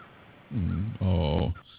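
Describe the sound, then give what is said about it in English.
Outside an open window, a bird gives two drawn-out, harsh, crow-like caws in close succession. They stand out loudly over a faint, steady background noise. “I think it's a bird or something down a little ways far. I'm sitting right in front of a window, and the window's open.”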